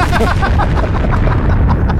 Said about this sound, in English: Carry on. Press the bomb again.